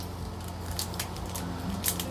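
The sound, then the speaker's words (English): Scissors cutting open a white chocolate snack package: several crisp snips and plastic crinkles over a steady low background hum, fairly quiet and evenly spaced. “You're doing it wrong. You're cutting it wrong.”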